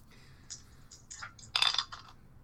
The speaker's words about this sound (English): You can choose to re-roll the 4 remaining dice, or you can pass. I'll roll them one more time.